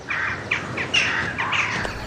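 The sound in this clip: Common kestrel chicks call at a nest overlooking buildings in late spring, giving a quick series of high, thin chirping cries over a steady hiss.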